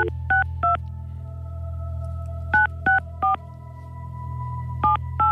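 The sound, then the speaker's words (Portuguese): Telephone keypad tones as a number is dialed: seven short, bright dual-tone beeps in groups of two, three and two, separated by pauses, over a steady low hum and a faint held tone. “vamos tentar marcar aqui o número e a ver se ela consegue falar connosco.”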